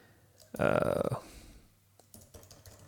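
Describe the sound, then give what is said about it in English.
Typing on a computer keyboard: a rapid, loud burst of keystrokes, then a few scattered clicks afterward, with some talking. “So maybe if I were to type in like Minneapolis”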